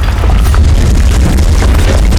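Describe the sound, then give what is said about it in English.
Ice covering a moat explodes in a loud, sustained booming roar: dense crashing noise over deep rumble fills the whole stretch at a constant, heavy level, without voices. “The ice covering the moat suddenly exploded as the moat monster roared up out of the freezing waters.”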